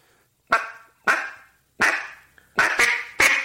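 Single quacks blown on a duck call, a series of several short, sharp, raspy notes with abrupt attacks and quick decays. Two of them come close together near the end, and the rest are spaced irregularly with no voices.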